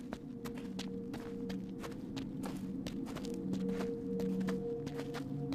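Footsteps of people walking form a steady rhythm of many soft steps over a faint, even background.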